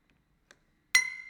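A glass bottle clinks: a faint tap, then one loud, bright ringing clink that slowly decays.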